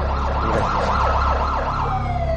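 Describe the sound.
Ambulance siren in a rapid, loud rising-and-falling yelp that repeats many times, then settles into a steadier tone over a low engine rumble.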